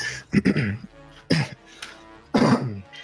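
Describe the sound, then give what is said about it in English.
Harsh coughing from a person choking after inhaling their own saliva. Three loud, rough bursts come in fits separated by short pauses. “I think I just inhaled my own spit and started choking on it.”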